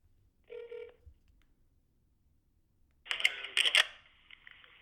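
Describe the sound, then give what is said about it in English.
A telephone call being placed: a short tone, a pause of silence, then a harsh, buzzing ring burst that stays loud for about a second before trailing off. “I only received his voicemail, but I'm going to call back now and see if they'll make my Shrek Spec.”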